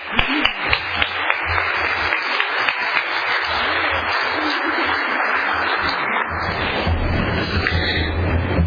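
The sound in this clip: Audience applause welcomes a speaker at a recovery group meeting. Dense, even clapping runs steadily for the whole stretch at a fairly loud level.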